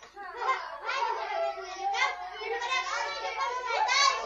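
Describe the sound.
Children playing noisily in a street, many high excited voices shouting and chattering over one another without pause for the whole clip.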